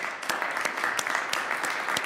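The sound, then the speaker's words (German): Delegates at the FIFA Congress applaud to approve a vote by acclamation, a steady, dense patter of many hands with a few sharper claps standing out, moderately loud and without voices. “Und dann wird so abgestimmt, wie Gianni Infantino es am liebsten hat, mit Applaus. If you agree, please, acclamation.”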